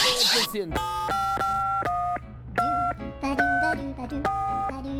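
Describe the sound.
A telephone keypad is dialed to call the president on a United States number, a quick series of steady, clear touch-tones of differing pitch separated by short gaps.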